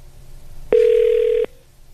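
A telephone sounds as a single steady electronic tone of even pitch, lasting under a second, loud and alone against a quiet background.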